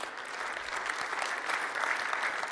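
Applause from a church audience at a morning service, a steady, dense clapping that holds at an even level for its whole length without cheering.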